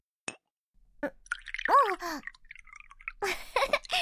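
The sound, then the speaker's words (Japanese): Sake poured into a cup, with soft liquid plops and splashes, a brief voiced sound midway and a noisy gush of pouring near the end. “ほら、もっと注いであげる。”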